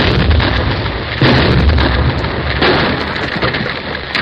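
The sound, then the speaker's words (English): A big blast sets a rocky hillside sliding down toward a mining tunnel, a loud, continuous roaring rumble of rock that holds steady for several seconds and surges stronger twice. “A big blast will start the whole hill sliding down to my tunnel. It might bury our machinery under 10 feet of rock.”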